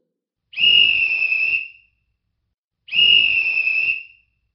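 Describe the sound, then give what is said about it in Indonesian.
A whistle blown twice as a signal in a children's group game: two long, shrill blasts of equal length separated by a short silent gap, heard alone. “bila kalian mendengar bunyi peluit dua kali seperti ini,”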